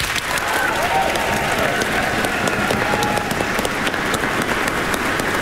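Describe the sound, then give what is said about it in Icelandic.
Audience applause for children's choirs after a concert performance, a thick, even roar of many hands clapping that holds a constant level from start to finish. “Við skulum gefa barnakórunum okkar gott klapp.”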